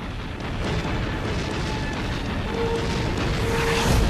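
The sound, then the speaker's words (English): A nuclear missile explosion striking a hive ship in a sci-fi TV show: a continuous, heavy roaring rumble with no sharp onset, staying loud throughout and swelling slightly at the end. “And look, one nuke got through. Woohoo! One of those ships has launched an attack. Their first strike inflicted serious damage on this hive.”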